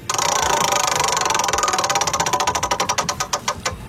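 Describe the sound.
A game wheel spinning, giving a rapid run of ratcheting clicks that gradually slow and spread apart as the wheel loses speed.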